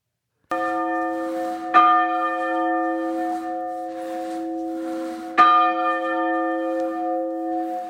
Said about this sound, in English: That's the sound of the church bell ringing when I visited the ancient building on a beautiful October afternoon.